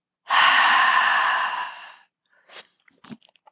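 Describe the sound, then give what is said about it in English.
A deep breath through the nose during a guided breathing exercise: one long, airy rush of breath that slowly fades, followed by a few faint, short breathy sounds. “We're going to take a deep breath in through the nose. Hold for 4, 3, 2. Exhale.”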